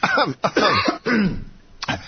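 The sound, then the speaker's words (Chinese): Throat clearing before singing, a few short rasping, voiced bursts separated by brief pauses. “很久没唱了，这个让我清一下喉咙。”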